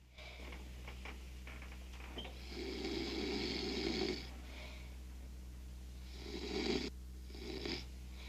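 A person snoring on a sofa: a few drawn-out, rasping snores with quieter breathing in between, set over a constant low hum.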